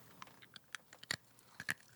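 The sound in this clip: Faint crisp cracks and crunches of teeth biting into a hard orange candy with a liquid centre: a few sharp crunchy snaps spread over two seconds, alone without talk.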